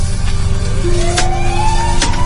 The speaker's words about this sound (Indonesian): Disusul mobil ambulans di belakangnya. Suara sirene dari ambulans itu memecahkan ningan.